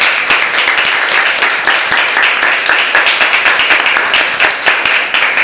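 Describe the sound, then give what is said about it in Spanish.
Loud audience applause after a talk, with many hands clapping in a dense, steady patter that lasts the whole time. “vamos a agradecerle con un fuerte aplauso”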